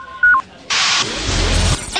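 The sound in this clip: An incoming e-mail notification effect: a brief pair of electronic beeps, then a longer, bright, hissy whoosh with a low rumble underneath.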